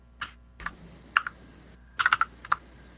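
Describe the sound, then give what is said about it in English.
Keys clacking on a computer keyboard in short, irregular bursts of sharp clicks: a couple of isolated taps, then a quick cluster of several strokes and a final tap. The clicks are crisp and moderately loud over faint background hiss, with no talk. “Everyone can hear me type, no doubt.”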